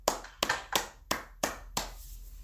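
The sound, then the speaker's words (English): Six sharp, evenly spaced hand claps greet a main speaker as he is introduced. Each clap is crisp and loud and fades quickly before the next, with no voices between them. “Let's give him a round of applause and big welcome.”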